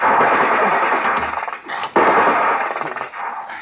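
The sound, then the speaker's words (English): Heavy .50 caliber machine gun fire, a dense, loud, sustained roar of rapid shots that briefly drops out near the middle before resuming with the same intensity. “Oh, it's 50 caliber.”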